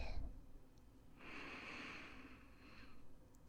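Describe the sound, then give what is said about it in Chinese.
A slow, deep breath drawn in during a guided breathing exercise, a soft airy inhalation lasting about two seconds, faint and alone. “接下来请跟着我一起做深呼吸，吸气，”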